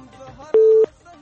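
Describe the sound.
A telephone busy tone after a dropped call: one steady, mid-pitched beep lasting about a third of a second, clearly louder than the faint background voices heard before and after it.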